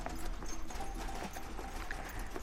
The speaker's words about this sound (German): Sie reisten meistens mit der Kutsche.